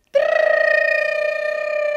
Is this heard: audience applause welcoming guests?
no